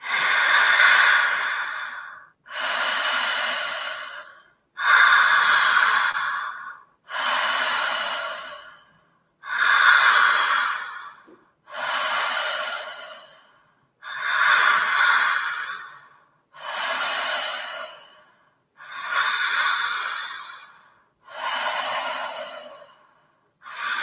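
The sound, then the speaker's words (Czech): Deep, slow breaths repeat in a steady circular rhythm, each full inhale flowing into a gentle exhale with only brief gaps between them. Many even breath cycles sound clearly and alone, with no talk. “Dech cirkuluje dovnitř a ven. Hluboký nádech, jemný výdech.”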